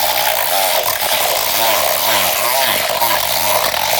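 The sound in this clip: A blender whirs as it mixes a cocoa maca herbal drink. A loud, noisy motor roar carries a warbling tone whose pitch keeps swooping up and down, giving a voice-like, talking quality.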